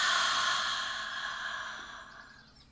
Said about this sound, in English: Let's breathe really slow. Take a deep breath in. And release it.